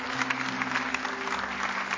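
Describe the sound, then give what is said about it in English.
A church audience claps their hands in a dense, even patter of applause that holds steady throughout at moderate loudness, over a low steady hum. “Can we give these folks a big hand clap as they're coming?”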